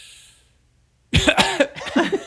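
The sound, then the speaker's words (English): A voice imitating an amateur's clumsy cough while smoking a cigarette: after a near-silent start come a few rough, sputtering bursts, loud and raspy. “cough like an amateur.”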